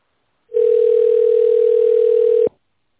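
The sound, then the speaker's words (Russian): A single steady telephone tone plays while a call to a company is transferred to a specialist. It is one unbroken, fairly loud, mid-pitched hum lasting about two seconds, then it cuts off, with no voices. “Ваш вызов переводится на ответственного специалиста.”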